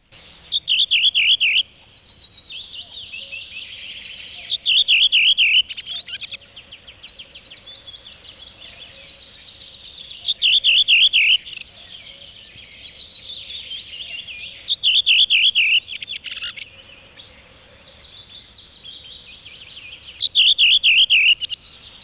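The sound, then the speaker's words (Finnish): A redwing thrush sings five loud, bright song phrases at regular intervals, each a quick, high, descending run of notes. Softer continuous twittering fills the gaps between the phrases. “Punakylki rastas.”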